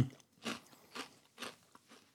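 Crunchy chewing of a seasoned corn chip, faint and dry: three distinct crunching bites come at an even pace, followed by a few softer, smaller crunches, with no talking.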